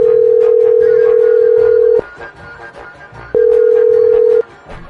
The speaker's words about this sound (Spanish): Vamos a marcarle otra vez. Vamos a marcarle otra vez.